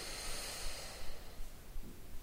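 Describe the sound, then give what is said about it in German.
Deep, slow exhalation in a guided breathing exercise, emptying the lungs completely, heard as a soft, airy hiss that fades gradually and stays faint throughout. “Um dann nochmal ganz leer zu werden, atme dich ganz leer.”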